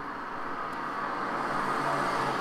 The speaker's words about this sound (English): Why are you driving like that, Mr. Car? Okay, you're on the right side of the road.